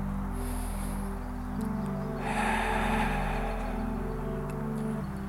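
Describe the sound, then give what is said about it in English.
A group draws one deep breath together during a guided breathing meditation. The soft, airy inhale swells over a constant low electrical hum, then eases away. “allow your awareness to go to your breath as you breathe in and out. Let us take a collective breath together.”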